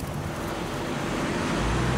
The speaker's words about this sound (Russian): По дороге проезжает немецкий мотоцикл с коляской.